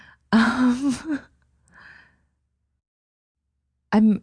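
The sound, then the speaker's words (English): A person yawning, a long, breathy, voiced exhale lasting about a second, followed by a fainter breath and a later short vocal sound. “I'm really having resistance to this question because I'm yawning right now.”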